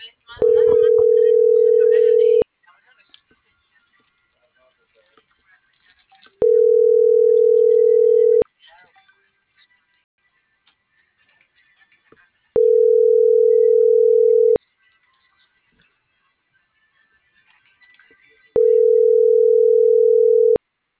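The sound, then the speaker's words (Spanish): A telephone line tone heard while a call is dialled: four steady, mid-pitched beeps, each about two seconds long, separated by quiet pauses of about four seconds, with faint background noise between them. “tengo que marcar”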